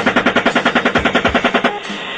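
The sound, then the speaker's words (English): Rapid machine-gun fire on a minivan carrying unarmed adults and children, captured in leaked military footage: one loud, evenly spaced burst of many rounds lasting under two seconds, then it stops. “After the initial shooting, an unarmed group of adults and children in a minivan arrived on the scene and attempted to transport the wounded. The van was fired upon as well.”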